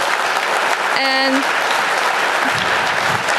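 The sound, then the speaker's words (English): Loud, dense applause from a conference audience after a session of lightning talks, steady and unbroken for the whole clip, with a brief tonal whoop rising above the clapping near the start. “let's have a big round of applause for our angels who are working in the room”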